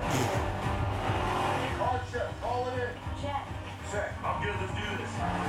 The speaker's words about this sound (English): Tyrese's car, since it was his plan, is spinning around in a circle.